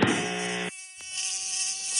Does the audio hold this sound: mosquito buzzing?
yes